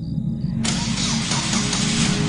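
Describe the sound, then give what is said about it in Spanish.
A car engine starts with the turn of the ignition key, catching abruptly after a faint hum and settling straight into a steady, full running rumble that continues to the end. “Entonces, acciono la llave y compruebo que el coche se enciende perfectamente.”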